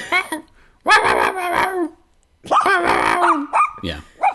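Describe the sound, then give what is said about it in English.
Dog barking in an unusual new style: two long, drawn-out, howl-like barks, then a few short sharp yips, loud and separated by brief silences. “He does have a new barking method that's like. A new style.”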